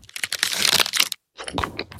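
Crisp crunching and crinkling from a mint Aero bubbly chocolate bar, a dense run of crackly bites for about a second, a brief silence, then a second shorter burst of crunching.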